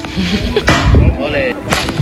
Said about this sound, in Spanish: Bueno, así suena el tiro de piedra con ondas.